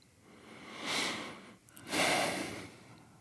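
A person takes a deep breath, heard as two breathy rushes of air, the second longer and slightly louder than the first, with no speech.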